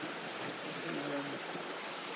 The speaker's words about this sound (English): Lovely sound of the water